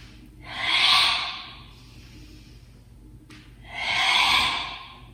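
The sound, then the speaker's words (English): Slow breathing during a guided movement exercise: two soft, airy swells of breath, each rising and fading over about a second, separated by quiet, with no talk. “Inhaling up. Exhaling down.”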